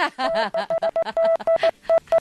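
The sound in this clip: Censor bleeps over speech: a steady mid-pitched tone cuts in again and again in many short bursts, chopping up a talking voice between them.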